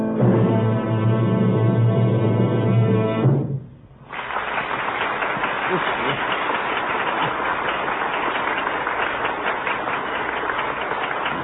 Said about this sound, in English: It's the greatest ovation he's ever had.